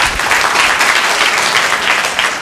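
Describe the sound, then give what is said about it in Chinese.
Applause from an audience thanking singers after a hymn performance: dense, steady clapping that fills the whole stretch at an even, fairly loud level with no voices on top. “我们鼓掌一下，谢谢他们。”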